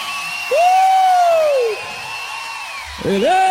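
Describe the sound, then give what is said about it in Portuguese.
Audience members cheer at a sertanejo gospel event, with a long, sustained high whoop followed after a pause by another rising shout near the end over a low crowd murmur. “pode aplaudir o Senhor.”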